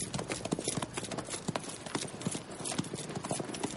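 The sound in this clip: Horses' hooves clip-clop during a hunting party in a forest, with a quick, uneven rhythm of many soft hoof strikes that stays fairly faint throughout.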